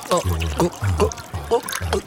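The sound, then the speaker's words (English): Raspberry mead is poured in a rhythmic series of five low, gurgling glugs at an even pace, fairly loud throughout. “I got you a raspberry mead. Let me just pour that inside.”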